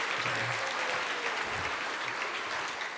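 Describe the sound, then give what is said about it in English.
Congregation applauding after a baptism in church: dense, steady clapping that holds an even level from start to finish. “Let's give him a hand.”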